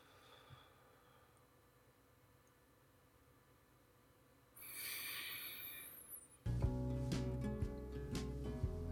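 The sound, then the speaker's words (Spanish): A slow inhale during a breathing exercise: a soft, breathy hiss of about two seconds that rises out of near silence, followed by a louder sound. “Doy una pausa y vuelvo a inhalar.”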